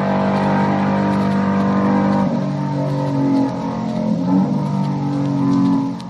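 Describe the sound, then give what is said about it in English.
Roaring engine of a 1965 Wood Brothers stock car on a qualifying lap for a 500-mile stock car race at Riverside. The loud, continuous engine note shifts in pitch partway through, then climbs again under steady power. “That was the sound of my Woods brother, 65, during my two laps of qualifying for the Riverside 500 stock car race. You can hear it during almost an entire lap.”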